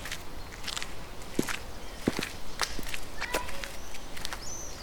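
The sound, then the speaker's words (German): Footsteps of someone walking down a city street, a few crisp steps standing out over a steady rustling background noise, with no talk. “Kommen Sie, wir laufen jetzt wieder die Rosa-Luxemburg-Straße hinunter”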